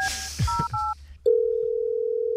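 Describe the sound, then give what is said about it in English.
Telephone keypad tones as a number is dialed: three short two-note beeps in quick succession, then a loud, steady tone that holds to the end. “Dial that number”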